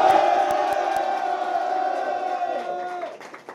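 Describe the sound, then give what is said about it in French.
A live audience cheers and whoops at the Hard Rock Café Paris, a sustained shout of many voices with a few sharp claps early on, then tapering off toward the end. “Bienvenue à tous en public, donc refaites du bruit.”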